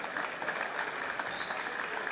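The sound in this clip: Live audience clapping to celebrate success, a dense, steady wash of many hands applauding together, holding an even loudness for the whole stretch with no voices standing out.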